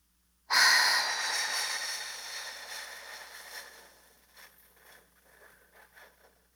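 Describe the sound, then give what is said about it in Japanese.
Breathing during a paced exercise of a five-second inhale, one-second hold and fifteen-second exhale. A long, airy breath starts abruptly and slowly fades, followed by a few softer, uneven puffs. “はい、5秒吸って。1秒止める。15秒吐く。”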